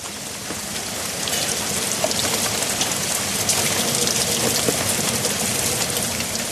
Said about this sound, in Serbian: Od ovolike kiše mogu da narastu reke, jezera, mora i okeani.